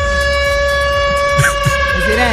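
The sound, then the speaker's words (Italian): An alarm siren sounds a loud, steady tone at a constant pitch with strong harmonics. It holds unbroken for the whole clip. “La sirena dell'allarme.”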